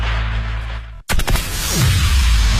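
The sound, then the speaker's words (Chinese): Firecrackers set off for the Spring Festival crackle in a dense, loud burst after a brief gap of silence. Sharp cracks come in quick succession and then merge into continuous popping. “依法依规放鞭炮，平平安安过春节。”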